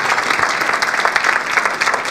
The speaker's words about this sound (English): A big round of applause for Gerry and Alison Brown.